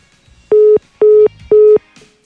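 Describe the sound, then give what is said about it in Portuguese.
Phone line tone after a dropped call: three loud, steady mid-pitched beeps of equal length, evenly spaced with short silent gaps between them. “A gente perdeu a ligação do Rafa, já vamos retomar.”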